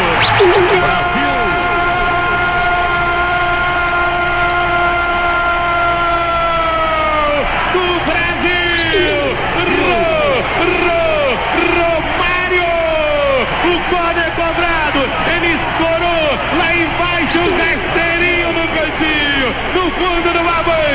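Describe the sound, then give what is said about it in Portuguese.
A football stadium crowd roars after Romário scores Brazil's first goal against Russia, beneath a commentator's long sustained goal shout and then rapid, excited talk. “Romário faz essa galera explodir. É o primeiro gol do Brasil.”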